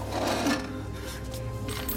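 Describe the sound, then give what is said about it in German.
A small handcuff key is dropped, giving a brief, light metallic clink over a low, steady hum. “Der Schlüssel für die Handschellen.”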